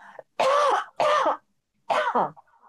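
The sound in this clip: Coughing and throat clearing caused by a tickle in the throat: three loud, rasping bursts, the first two close together and the third after a short pause, with faint breathing around them.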